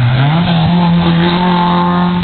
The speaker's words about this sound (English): As the Datsun 1600 comes into the corner, nice bright yellow.